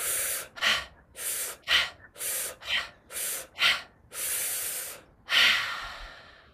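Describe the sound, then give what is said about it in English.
Forceful mouth breathing during a guided breathing exercise: a quick series of about seven short, loud breath bursts, then two long, sustained breaths, with no talk. “Take a deep inhale and then a big exhale.”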